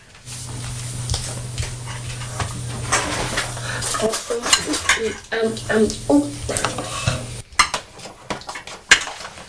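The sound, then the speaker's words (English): A clean spoon goes into a bowl of pasta salad with sweet corn, making a run of light clinks and scrapes against the dish, with a few sharper knocks toward the end over a low steady hum. “Some more pasta salad. What do you say? So I'll just get a clean spoon to put in the bowl.”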